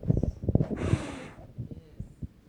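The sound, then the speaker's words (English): A forceful breath blown out by a preacher imitating God breathing life into man, a single sustained airy hiss lasting about half a second, set among soft low thumps and faint voiced sounds. “He breathed breath into man's body, Adam”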